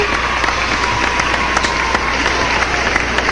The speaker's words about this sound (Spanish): Vamos a darle un aplauso.